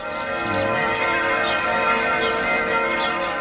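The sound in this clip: A church bell ringing within an instrumental live music recording: a loud, sustained metallic tone with a dense, steady ring that fills the whole clip.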